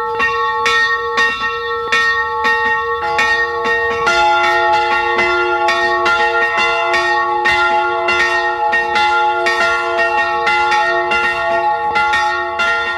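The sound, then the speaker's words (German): Church bells peal at noon from a small 17th-century baroque branch church in Carinthia, Austria, many loud strikes overlapping in a continuous, resonant ringing with no voices. “Es ist 12 Uhr. Sie hören die Glocken der Filialkirche St. Georg in Tippitsch in Kärnten.”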